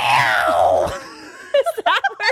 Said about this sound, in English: Howard Dean, who was running to be the Democratic presidential candidate, you tell me when you know, let out the famous Dean scream.